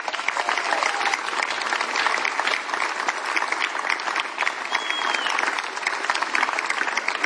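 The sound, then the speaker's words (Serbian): Warm audience applause at a festival evening greeting a singer on stage, a sustained, dense crackle of many clapping hands holding an even, fairly loud level throughout. “Dame i gospodo, toplim aplauzom pozdravite, s nami je Nevia Rigutto.”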